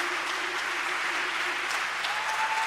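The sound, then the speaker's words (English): An audience claps steadily, a loud, even wash of many hands that continues unbroken for the whole short clip. “Clap. Keep clapping.”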